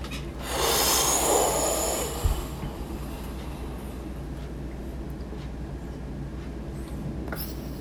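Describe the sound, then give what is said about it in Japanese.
A person breathing out in one long exhale, a loud breathy rush lasting about a second and a half, followed by a steady low rumble of background noise. “息吐いてください”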